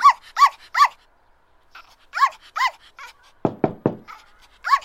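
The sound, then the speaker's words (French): A dog barks in several short groups of sharp, high yelping barks, separated by brief pauses, with a few heavier, deeper bursts near the end. “C'est un chien!”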